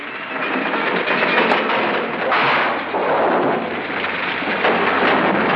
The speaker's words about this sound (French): Sortez-moi de là! Ça va exploser!